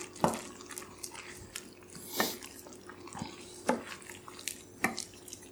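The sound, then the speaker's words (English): Eggs simmering in a pan give a faint, quiet bubbling bed broken by a few soft pops and ticks at irregular intervals. “I might put the lid on for a little bit just to give it a chance to set those whites a little bit faster. Can you hear it's simmering really good. It's a real quick simmer, which is great.”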